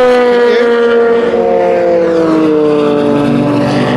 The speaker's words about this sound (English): Pair of Toyotas sounding very different to each other then, going by.